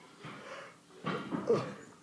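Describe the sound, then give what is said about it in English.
A tired yawn: a soft breathy opening, a brief lull, then a louder, strained, drawn-out exhale that trails off. Quiet overall, with no speech. “Excuse me, that was a yawn.”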